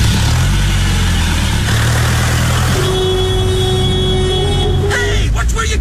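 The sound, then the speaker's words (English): A car engine roaring as the car speeds off fast, the driver flooring it, with loud, steady engine noise throughout. “Going? You said I should put my foot down. Yeah, but I didn't mean drive like a maniac.”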